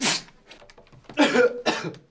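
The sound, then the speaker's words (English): A person coughs three times: one sharp cough first, then a pause, then two loud, raspy coughs close together. “I've got a cough too.”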